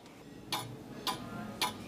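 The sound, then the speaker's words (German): An old pendulum clock in front of a restaurant ticks three times. The ticks are sharp, faint and evenly spaced about half a second apart, with quiet hiss in between. “Die alte Pendeluhr vor dem Restaurant tickt.”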